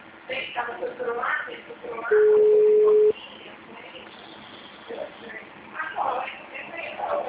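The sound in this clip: A telephone ringing tone plays over a phone line: a single steady, level tone lasting about a second, with voices talking before and after it.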